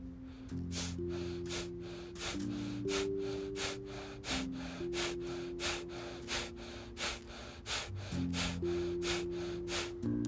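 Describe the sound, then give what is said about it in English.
Breath of fire, a rapid belly-breathing exercise: many quick, forceful nasal exhalations in a fast, steady rhythm over sustained droning musical chords. “And now you've begun a little breath of fire.”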